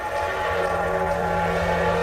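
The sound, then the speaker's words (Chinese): An armored train setting off, heard as a continuous low rumble and steady mechanical hum with a soft hiss, holding an even level throughout. “列车随后又出发了。 当装甲列车经过白塔的时候，”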